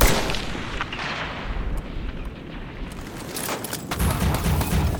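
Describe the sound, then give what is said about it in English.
Sniper rifle gunfire from a tower in a combat scene: several sharp reports cut through a dense, loud rumble of battle noise. “They shot the kid. Tango sighted in the tower, taking the shot. Tango down.”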